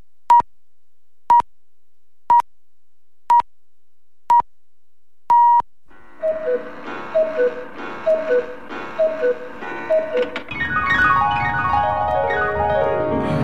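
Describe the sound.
Six radio time-signal pips mark 17:00 on Polish Radio Trójka, steady and evenly spaced about a second apart, with the last one longer. Music follows.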